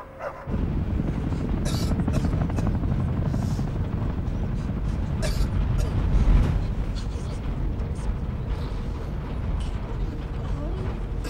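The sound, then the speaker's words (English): Low-flying helicopters pass a bus on a country road. Their continuous broad rotor rumble swells slightly midway, then holds steady and loud throughout. “Low-flying helicopters pass the windows.”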